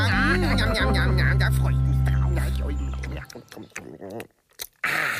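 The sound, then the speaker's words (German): French fries being eaten: after a sustained low droning tone, a short run of irregular crunching and chewing bites crackles unevenly before fading. “Wer isst denn dann nun die ganzen Pommes? Ach, da wüsste ich schon jemanden. Wen? Na, uns! Lecker, ja!”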